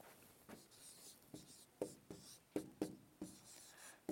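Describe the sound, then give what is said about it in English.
Writing on a board produces many short, scratchy strokes in an uneven rhythm, each a brief faint scrape separated by small pauses. “let me write on the board here what our culture's greatest God is.”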